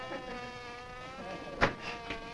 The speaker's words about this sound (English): These pesky things are getting to be a nuisance around here. Shoot! Darn bees!